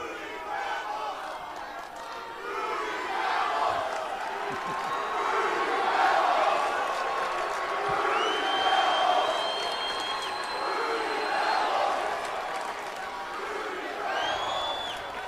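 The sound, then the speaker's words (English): A wrestling event crowd chanting and cheering, a sustained loud roar of many voices that swells and holds for about fifteen seconds. “damn, I love that chant. I mean, really, that's a good one.”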